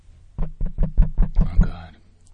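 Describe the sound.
Knocking at a door: seven quick, firm knocks in an even, rapid rhythm, fairly loud and alone, followed by a short quiet tail.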